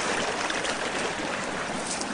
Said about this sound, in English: See, there's just about 12 inches that are not frozen across that area of the creek.